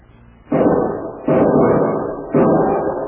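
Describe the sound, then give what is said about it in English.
Three loud rifle gunshots in quick succession, each a sharp blast that trails into a long, rumbling decay that lasts until the next shot. No voices are heard. “Use that rifle”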